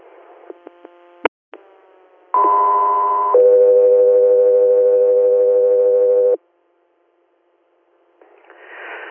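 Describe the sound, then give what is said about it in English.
Dispatch alert tones for an ambulance facility transfer call: after a few sharp clicks, a loud steady higher tone holds about a second, then drops to a lower tone held about three seconds. Silence and a burst of static follow. “stand by for tones.”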